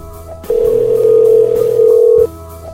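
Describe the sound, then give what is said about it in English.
A steady telephone tone sounds as a call is placed to the caller's own number: one continuous, loud, even beep lasting under two seconds, with a low hum before and after. “I'm going to call my own number here quickly just to make sure that my number is coming up correctly.”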